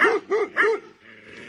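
Dogs bark in a quick run of three sharp barks, followed by a brief lull and the start of another bark at the end.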